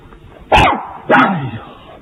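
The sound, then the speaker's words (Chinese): A dog barks twice, two loud, sharp barks a little over half a second apart, followed by a quieter trailing sound and faint background noise between them. “皮克，快叫住你的花花，警察先生有点怕狗。 花花，快过来！”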